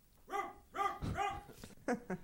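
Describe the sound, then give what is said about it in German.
A dog barks in the distance, several short, quiet, harmonic barks spaced irregularly: a few at even intervals, then two quicker ones close together. “In der Ferne bellt ein Hund.”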